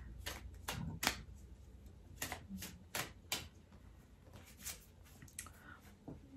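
Shuffling of a deck of angel oracle cards gives soft, crisp snaps and flicks that come in an irregular run of quick clicks. The sound is quiet and stands alone, with no talk.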